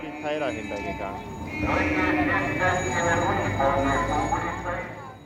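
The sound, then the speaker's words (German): Shrill, blaring horns sound in a honking protest at a communist loudspeaker van near an S-Bahn overpass in Berlin. Many overlapping sustained tones grow louder midway and stay piercing to the end. “Und dies war die Antwort. Ein Hubkonzert. Gellend, dass man sich fast die Ohren zuhalten musste.”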